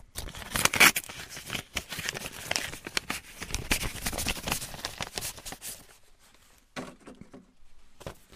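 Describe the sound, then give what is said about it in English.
An envelope for the beers is torn open: dense crinkling, tearing and rustling of paper for about six seconds, followed by a few softer, separate rustles. “Okay, I'm going to open the envelope for the beers.”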